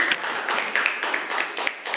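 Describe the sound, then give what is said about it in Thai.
Students in a classroom applaud a classmate for a correct answer, producing a run of overlapping claps that pulse in uneven bursts at moderate loudness, with no talk over them. “ปรบมือเพื่อนด้วยนะครับนักเรียน”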